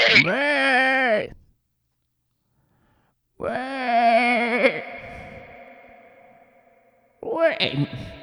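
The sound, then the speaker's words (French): A human voice imitates a ewe bleating while chewing grass, giving three loud, drawn-out, quavering cries with long pauses between them; the last cry is cut off. “La voix d'une brebis qui chique son herbe.”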